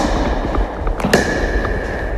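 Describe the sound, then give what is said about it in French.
Sharp pops of a rigid pickleball paddle striking a perforated plastic ball, a pair of quick hits close together with the second leaving a brief ringing tone, over steady background noise. “Alors ça, c'est une raquette rigide, c'est une raquette de pickleball. Vous avez une balle en plastique perforée et là, je vous laisse déjà découvrir”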